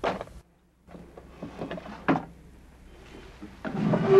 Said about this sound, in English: He puts it back and closes the drawer.